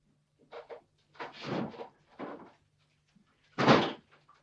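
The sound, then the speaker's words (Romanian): A terrace door being opened, heard as a few short knocks and scrapes followed by one louder thud, over a faint low hum. “Deschide ușa de la terasă. Vreau să cobor puțin în grădină.”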